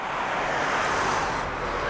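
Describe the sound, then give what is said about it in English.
Cars passing on a road beside a walking trail at Mountain Park make a steady, broad rushing roar that holds at an even loudness throughout, with no separate pass-by swells standing out. “You can probably hear cars going by. This walking trail at Mountain Park goes along the beside the road”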